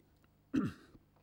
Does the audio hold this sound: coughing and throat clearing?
yes